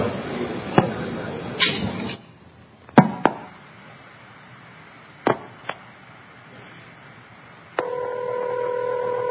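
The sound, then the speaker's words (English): A telephone number being dialed over a long-distance trunk line: a few sharp clicks and tone bursts spread apart over line hiss, then a steady ringing tone that runs to the end. “So this is dialing a number.”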